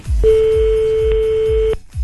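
Telephone line tone as a call is placed: one steady mid-pitched tone held for about one and a half seconds, over a regular low pulsing thump underneath.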